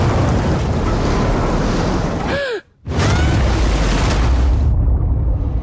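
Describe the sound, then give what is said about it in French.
Rough, heavy sea with crashing waves: a loud, continuous roar of surf and wind that drops out briefly near the middle, then returns at full strength. “La mer est démontée.”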